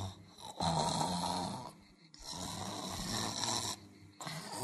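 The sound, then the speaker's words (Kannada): A sleeping woman snores loudly in a few long, rasping, breathy drones with short pauses between them, and no talk over them. “ಗೊರಕೆ ಶಬ್ದ ಅಲ್ಲ ಕಣೆ, ನೀನೊಬ್ಳು ಯಾವಾಗ ನೋಡಿದ್ರು ನಿದ್ದೆ.”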